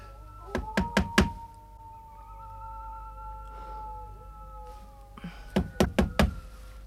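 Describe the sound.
Knocking on a door in two groups of four sharp raps, the first set early and the second after a pause of several seconds, with no voices between them.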